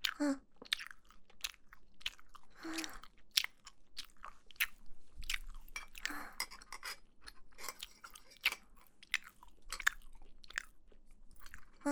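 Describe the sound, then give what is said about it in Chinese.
Someone chewing and eating home-cooked food: a long run of many soft, crunchy bites and mouth sounds at a steady, uneven pace, faint throughout with little else behind them. “我肯定要把这些都吃掉。老公，这个好好吃啊。”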